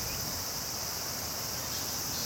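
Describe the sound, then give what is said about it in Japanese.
Cicadas singing loudly: a steady, high-pitched buzzing drone that holds its level throughout, with no pauses and no voices. “本日はセミがどうしてこんな大きな声で鳴くんですかというのをいろいろ調べてみました。”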